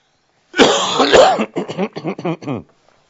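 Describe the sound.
A harsh, drawn-out cough rasps for about a second, loud and rough, followed straight away by a few syllables of speech.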